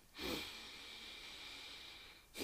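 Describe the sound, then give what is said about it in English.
A long breath drawn in through the nose, a steady airy hiss lasting about two seconds, followed by the start of another sniffing inhale at the very end. “Have a breath.”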